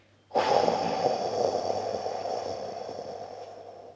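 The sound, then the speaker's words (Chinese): A long deep breath during a children's meditation exercise: one airy, steady rush of breath begins abruptly and slowly fades over several seconds, with no talk. “我们深深的吸气，再慢慢的吐气出去。”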